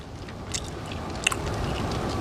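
Faint chewing of tsampa, with soft, moist mouth sounds and small crisp clicks over a steady low background noise.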